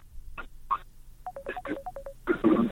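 Telephone dialing tones as a listener's call connects to a health phone-in program: a quick run of short, evenly pitched electronic beeps mixed with clicks and line noise.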